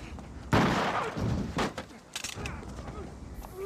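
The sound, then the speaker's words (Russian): Pistol gunshots ring out during an arrest: a few sharp, loud bangs spread over several seconds, with rough scuffling noise between them. “У него пистолет.”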